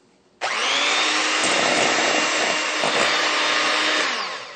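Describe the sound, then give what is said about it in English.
An electric beater whirs as it beats egg replacer and water into powdered sugar. The loud, steady motor drone starts abruptly and runs unbroken for about four seconds before easing off slightly at the end. “we'll add to it the egg replacer and the water, and we'll beat that with an electric beater.”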